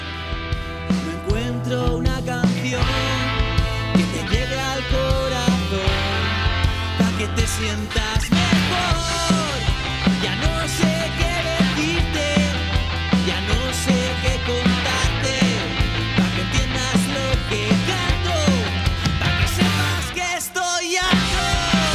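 A rock song with powerful, driving drums and dense guitars plays loudly, keeping a steady beat throughout, with a brief break near the end before the band crashes back in.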